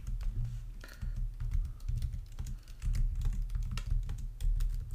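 Typing on a computer keyboard produces many rapid, uneven key clicks in a steady stream, with no voices.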